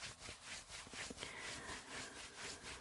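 Arms being rubbed vigorously with the hands make a brisk, rhythmic swishing of many quick, even strokes, moderately loud and heard alone.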